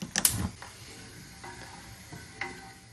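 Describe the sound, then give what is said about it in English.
A spoon stirs beef stock in a pan of gravy with meat dripping: a loud clattering scrape at the start, then a few faint scraping strokes against a quiet background. “I'm just getting a spoon in just to give it a stir.”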